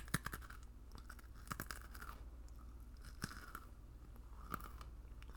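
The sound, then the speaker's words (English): Crisp crunching and chewing of a pretzel, close and ASMR-style, with many sharp crunch bursts at an irregular pace over faint steady background noise, with no talk. “I must pause. Pretzel ASMR.”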